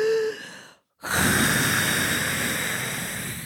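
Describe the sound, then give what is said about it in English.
A person imitates a dragon taking a deep breath in: after a short silence, a long, loud, breathy rush of air holds steady for about two and a half seconds, with no talk. “And the dragon lifts his head, takes a deep breath in,”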